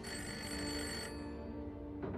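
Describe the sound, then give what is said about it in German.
A telephone bell rings in a loud, continuous burst. Its bright, rattling tone thins out after about a second, and a lower ring lingers to the end. “Was war das? Das Telefon.”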